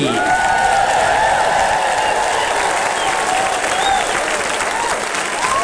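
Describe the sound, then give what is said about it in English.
Loud audience applause welcomes the host onto the stage at a celebration night, a dense, continuous clatter of clapping with crowd noise that holds steady and eases slightly near the end. “Please, homai te paki paki, a round of applause for the Kariori Ngāti Whātua as we welcome to the stage your host, the irrepressible Karen O'Leary.”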